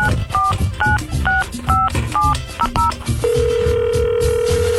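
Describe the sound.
Telephone keypad tones dial a number to call a contest winner: a quick run of paired beeps, then one long, steady, loud tone that holds to the end.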